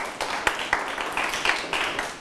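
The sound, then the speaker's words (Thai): Pupils in a classroom clap for a classmate who answered correctly. The claps come in short, sharp bursts with clear accents in a patterned rhythm rather than a smooth roll. “ถูกต้องไหมครับถูกต้องปรบมือให้เพื่อน”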